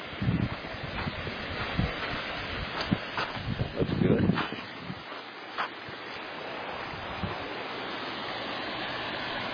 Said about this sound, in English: And here are our fish in our fish pond.